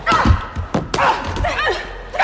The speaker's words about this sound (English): Molly punches Christina down and kicks her.